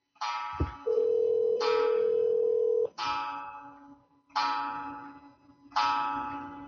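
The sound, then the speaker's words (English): A wall clock chimes for eleven o'clock, heard as five resonant ringing strikes at a steady, slow pace, each decaying before the next, with a steady tone sounding under the first strikes. “On the clock, everybody, making its 11 o'clock appearance.”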